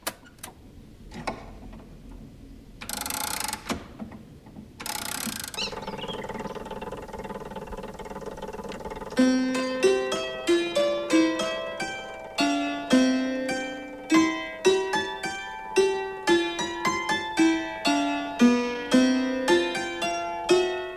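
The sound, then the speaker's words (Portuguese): Marie Antoinette's dulcimer automaton plays a piece by Gluck as a steady stream of struck, ringing melodic notes in an even rhythm, entering after several seconds of low mechanical noise broken by two brief loud bursts. “Essa é a rainha da França, Maria Antonieta, tocando uma peça do compositor Christopher Gluck, que deu aulas de piano para a rainha durante a sua infância em Viena. O instrumento é um dulcimer,”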